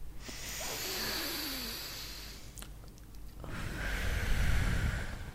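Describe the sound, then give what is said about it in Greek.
Breathing: a deep, airy inhale followed, after a short pause, by a fuller, relaxed exhale through the mouth, both soft, hissing breaths with no voice. “Πάμε, εισπνοή βαθιά και εκπνοή χαλαρή από το στόμα.”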